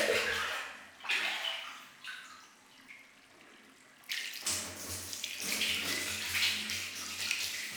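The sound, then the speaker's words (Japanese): Hot water scooped from a bath bucket and poured over someone being washed, several splashing pours of varying strength with a quieter trickling stretch in the middle before a longer, steadier pour at the end. “まずは軽く流していきますね。桶にお湯を汲んで、”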